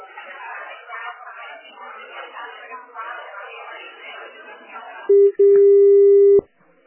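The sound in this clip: A telephone tone sounds as a call is transferred. Several seconds of talking are followed by a loud, steady single-pitch tone that breaks briefly once and then cuts off sharply.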